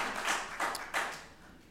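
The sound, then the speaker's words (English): Brief applause from a church audience for the children, heard as faint bursts of clapping over a short stretch. “Y'all give them a round of applause. Tell them thank you for being here.”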